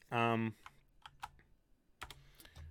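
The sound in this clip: Typing on a computer keyboard while copying and pasting a stat block during a tabletop role-playing session: a few light, scattered key clicks and taps, with a brief voice at the start and another voice near the end.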